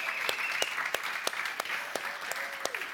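A church audience applauds its worship band with faint, steady clapping. A few sharper, louder claps stand out throughout.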